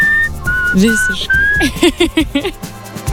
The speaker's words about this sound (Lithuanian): kiek aš prisimenu švilpėjimų, tokių ikoniškiausių, tai šitas tikrai vienareikšmiškai yra ikoniškiausias